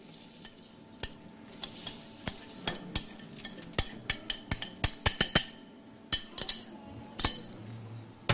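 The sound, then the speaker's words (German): Sunflower seeds roasting and being stirred in a pan: many sharp clinks and scrapes of the utensil at an irregular pace over a faint, steady sizzle, with no voices. “Und auch Sonnenblumenkerne werden geröstet.”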